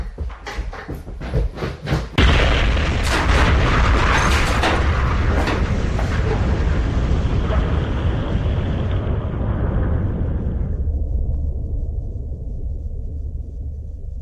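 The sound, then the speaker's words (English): A bomb hidden in a toolkit explodes. A few sharp clicks come first, then a sudden loud blast that rolls into a long, heavy rumble, thinning and slowly dying away. “That man's toolkit. There's a bomb in it!”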